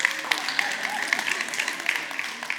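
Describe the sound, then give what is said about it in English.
An audience claps to welcome a speaker to the stage, a steady wash of applause with individual sharp claps standing out at a moderate level. “I want everybody to put your hands together for Winter Park Wilma. Winter Park. Please welcome her to the stage.”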